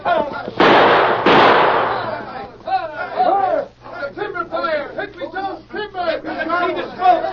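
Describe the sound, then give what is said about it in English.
Gunshots crack out in a western scene at a lumber camp: two loud, rough blasts in quick succession. Men then talk excitedly over the fading noise. “What was the shooting?”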